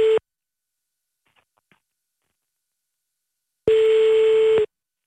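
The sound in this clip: Telephone tones as a call is placed to a father: a brief electronic tone cut short at the start, a few faint clicks in near silence, then one steady, level ringing tone lasting about a second.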